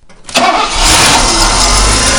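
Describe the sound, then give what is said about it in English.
A car engine of just under 300 horsepower, with a four-speed automatic, starts up. The starter turns briefly, then the engine catches and runs as a loud, steady, rumbling roar. “Any chance in starting it up? Oh, sure. Never let me down yet. Okay, starter up.”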